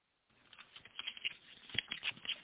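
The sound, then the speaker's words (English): Playing cards rustle and tap as one is drawn from a deck, a quiet run of many small flicks, clicks and soft brushing sounds. “Can I have a card? Oh, yeah. I'm sorry. I was just about to pull one.”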